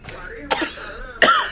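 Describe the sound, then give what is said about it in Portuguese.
Coughing after choking: two short, harsh coughs a little under a second apart, with faint throat noises between them. “Ah, me engasguei, desculpa.”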